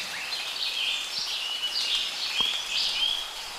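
Birds sing in a forest, with many faint, high chirps and warbling phrases repeating over a steady background hiss and no voices.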